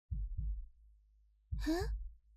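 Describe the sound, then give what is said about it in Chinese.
Heartbeat thudding in two soft, low double pulses, lub-dub, separated by a pause; a brief breathy vocal sound rises over the second beat. “让我摸摸你的心跳。”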